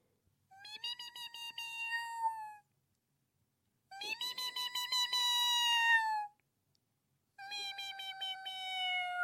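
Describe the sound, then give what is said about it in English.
A human voice imitates a cat meowing, a cat that would not go into a rescue trap. It gives three long, drawn-out meows, each about two seconds, steady in pitch and separated by short silences. “I hear this cat. He comes out every so often and goes,”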